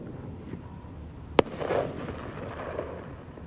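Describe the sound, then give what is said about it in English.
A gun fires a single blank round into the air to drive off a polar bear in Churchill: one sharp, loud crack stands out against quiet outdoor ambience, followed by a brief low rumble. “Firing blanks in the air is usually an effective way of moving a bear on.”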